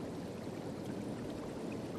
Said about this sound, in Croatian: Dok razblješnjela voda onako buči.